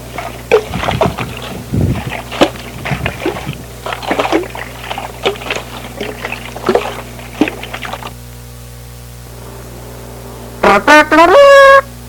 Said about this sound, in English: Captain Evil is sailing to Scully Gilly Rock, where Captain Good is searching for the treasure.